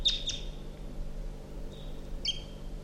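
Wild birds calling: short, high chirps come in a few brief bursts, a quick pair at the start and more later, faint over a low steady hiss.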